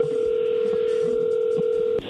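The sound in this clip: A telephone call to a spouse is placed, with a loud, steady dial tone held unbroken before it cuts off abruptly near the end.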